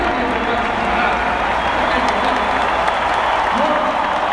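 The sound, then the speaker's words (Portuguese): Audience applause: a thick, continuous roar of many hands clapping, loud and unchanging throughout. “Aplaudirem da maneira que vocês merecem, tá?”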